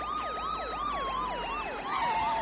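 Police sirens wail in a fast, repeating up-and-down sweep over a steady high tone, loud and continuous throughout with no voices.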